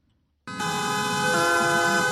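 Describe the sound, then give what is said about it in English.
French taxi drivers lean on their car horns at an anti-Uber street protest, a loud, sustained blare that cuts in abruptly after a brief quiet moment and holds steady to the end. “That's the sound of French taxi drivers honking their horns.”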